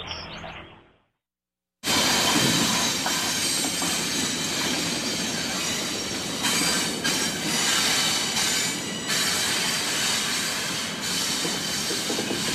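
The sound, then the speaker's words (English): A train crossing a railway drawbridge over canal locks. After a brief quiet start comes a sudden, loud, steady rumble and rattle of wheels on the bridge, with high metallic squealing throughout. “That's the sound of a train crossing the railway drawbridge that goes over the Ballard Locks.”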